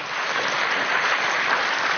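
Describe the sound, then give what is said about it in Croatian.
Applause at a charity event honouring a municipal utility company among donors to school gardens, a dense, continuous wash of clapping that stays steady and loud for two seconds. “S nama je u ovoj velikoj akciji Trgovačko komunalno društvo Ponikve, Eko otok Krk, za njih veliki pljesak.”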